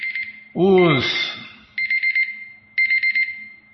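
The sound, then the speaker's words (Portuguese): Timer alarm going off: clusters of rapid, high-pitched electronic beeps recurring in bursts, with a voice speaking briefly between the first and second bursts. “Ah, temporizador, tá, o temporizador.”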